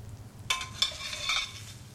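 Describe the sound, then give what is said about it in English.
A utensil scrapes scrambled eggs out of a frying pan onto a plate, making a few quiet scrapes and light metallic clinks with a faint sizzle beneath. “She dishes up the breakfast. I'm Anna, and that's Ethan. She adds scrambled eggs to another plate.”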